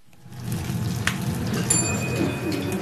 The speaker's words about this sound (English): this is a rather charming Syrian restaurant in the Schönberg district, and you can probably hear preparations in full swing for tonight's customers